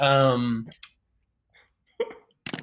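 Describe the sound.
A pen clicked a few times: short, dry clicks spaced irregularly, following a brief voice at the start.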